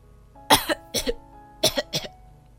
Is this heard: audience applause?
no